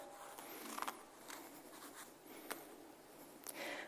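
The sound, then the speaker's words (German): A knife cuts open an apple that is mushy and brown inside, giving a few quiet scraping, crunching strokes and small clicks, with no talking. “Und manchmal schneide ich dann so einen Apfel auf. Ich mache das mal.”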